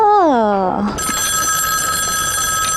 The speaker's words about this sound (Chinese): 电话电话，哦，电话来了，是不是？